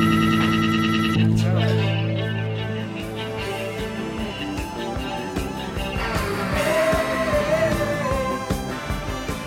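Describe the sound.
A rock song plays on a radio show, with sustained layered tones over a steady, driving drumbeat. The music stays loud and full throughout.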